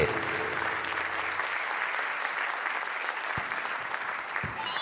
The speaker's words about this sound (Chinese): 感谢大家的欢声哦，谢谢。